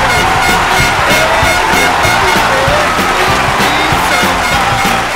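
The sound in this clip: Loud audience cheering and whooping for a children's show performance, a dense continuous wall of crowd noise with a pulsing rhythm that holds steady the whole time.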